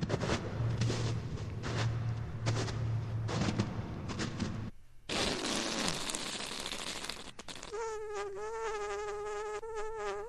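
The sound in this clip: A whoopee cushion sound effect triggered by a handshake in a video game: a buzzy, wobbling low raspberry tone lasting about two seconds. It follows a stretch of dense, noisy game audio.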